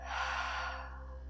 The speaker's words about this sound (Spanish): Y vamos a empezar inhalando profundo por la nariz. Llena tus pulmones hasta el fondo. Y para limpiar el cuerpo por la boca, exhala todo el aire.